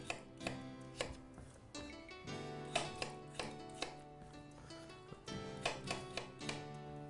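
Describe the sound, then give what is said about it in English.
A knife slices potatoes on a board in a series of quiet, regular knocks, roughly two per second, over soft sustained musical tones. “Okay, so we're going to keep going, slicing these potatoes.”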